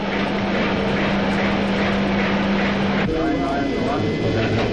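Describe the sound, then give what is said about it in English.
Cluster motors spinning up toward launch RPM give a steady, loud mechanical drone with a low hum. About three seconds in the tone shifts and new whining tonal lines appear. “Roger, clear to bring the cluster motors up to launch RPM. Roger. 50 RPM. 100 RPM.”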